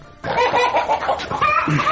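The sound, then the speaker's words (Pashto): Chickens clucking on a poultry farm in Ghazni, Afghanistan: many birds cluck and call in dense, overlapping bursts, starting abruptly after a brief quieter moment and staying steadily loud throughout. “هغه مو اوس د چرګانو فارم خلاص کړی دی، بازار ته وړاندې کوي.”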